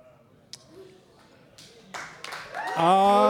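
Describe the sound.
Audience applause at a live show in Motor Pub in downtown Cincinnati, starting with a few scattered claps that swell into loud, fuller clapping, with a voice rising over it at the end.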